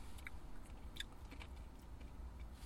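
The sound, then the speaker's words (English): Strawberries are being chewed, with soft, wet smacks and a few faint crunchy clicks over quiet background hiss. “I mean, I'm eating them because I asked for extra, and I think I paid for extra strawberries.”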